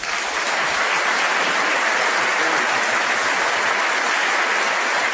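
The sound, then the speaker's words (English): Audience applause welcoming a professor to the lecture podium, a dense and steady wash of many hands clapping that holds at an even, fairly loud level throughout without a break. “Please join me in welcoming Professor Robbie George.”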